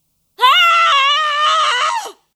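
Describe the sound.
A woman's loud, high-pitched scream comes as one sustained cry of just under two seconds, holding steady before it drops off sharply at the end.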